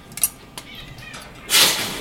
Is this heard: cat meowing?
yes